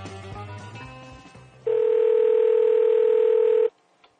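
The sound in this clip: A telephone call is placed: a brief jumble of dialing tones gives way to a single loud, steady electronic tone held for about two seconds, which cuts off abruptly into near silence.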